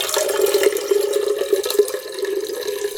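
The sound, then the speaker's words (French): Water pours steadily into a watering can filled at a fountain, a continuous splashing flow with a ringing hollow tone and small irregular spatters throughout. “Il fallait aller chercher l'eau à la fontaine, avec des arrosoirs. Vous aviez le bruit de l'eau qui coule dans l'arrosoir.”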